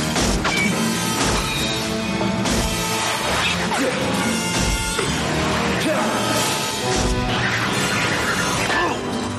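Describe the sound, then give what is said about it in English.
A bolt gun fires in a Darkman film scene as Strack opens fire on Peyton. Dense, loud crashing and smashing impacts run almost continuously throughout, with sharp hits layered over a thick, busy soundtrack. “Strack picks up a bolt gun and opens fire on Peyton.”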